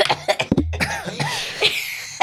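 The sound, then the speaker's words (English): A person coughs a few times in short, harsh bursts, mixed with throat clearing and brief voiced sounds between them. “And somebody's about to cough soon.”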